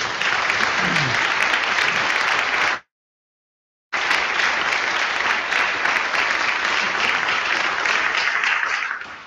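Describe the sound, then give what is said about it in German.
Dense, sustained audience applause at a conference, steady and loud, broken by a short silent gap before the clapping continues. “Tolle Arbeit und das ist ein Applaus wert.”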